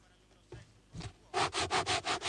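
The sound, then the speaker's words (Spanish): Fingers scrape across a textured cover printed with a photo of a breaded milanesa. Two soft rasps come first, then a rapid, louder run of rhythmic scratching strokes. “Estoy raspando la tapa. La tapa de la milanesa es una foto de una milanesa, pero que tiene textura y parece que uno estuviera raspando una milanesa por el rebozado.”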